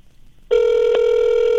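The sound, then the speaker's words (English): A telephone call tone sounds as a steady electronic tone that starts abruptly and holds unbroken to the end, as a call is placed and rings through toward voicemail. “Are you dialing? Yeah. Oh, we're getting voicemail.”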